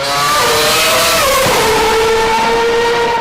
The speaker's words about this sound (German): Zum Vergleich, der Formel-1-Wagen